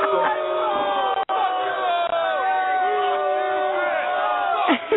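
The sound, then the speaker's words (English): A rowdy studio audience cheers and shouts in a loud, continuous roar of many voices, with whoops rising over the din. “That's the studio audience. The studio audience getting rowdy.”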